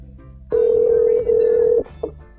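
Ringing tone of an unanswered cell phone call: a steady, mid-pitched electronic ring just over a second long, with a brief break partway through, then a short blip after it ends.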